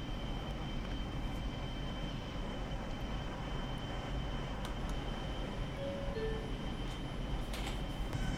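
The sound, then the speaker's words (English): A Manhattan-bound subway train runs along the line with a steady, fairly faint rumble and rushing noise that never lets up. Brief high squeals come through now and then, and no one talks. “This is Manhattan bound to stop the train. The next stop is Norwood Avenue. Stand clear of closing doors, please.”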